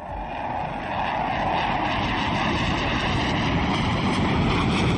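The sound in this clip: A fighter jet completes a full loop after takeoff and comes back toward the runway. Its loud, broad engine roar swells over the first second, then holds as a steady, rumbling drone.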